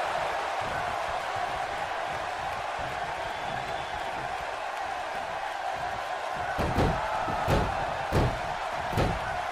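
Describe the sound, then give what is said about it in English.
Pro wrestling moves, including a clothesline and a power slam, landing on the mat: several heavy, booming thuds in the last few seconds, heard over steady crowd noise that runs throughout. “Randy Orton now picks up Lesnar and hits him with a clothesline. And another one. And a power slam.”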